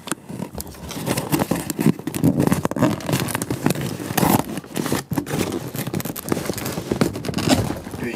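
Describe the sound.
A box being opened and unpacked by hand: continuous rustling, scraping and crackling of packaging, with sharp tearing and handling noises, fairly loud and without talk.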